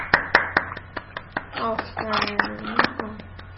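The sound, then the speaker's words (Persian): Children clapping, several scattered sharp claps rather than a full round of applause, with a voice speaking in the middle. “بچه ها تشویق کنید نیکارو.”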